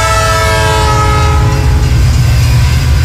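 A train horn blares over the loud, low rumble of a passing train, then fades partway through while the heavy rolling rumble and faint clatter continue.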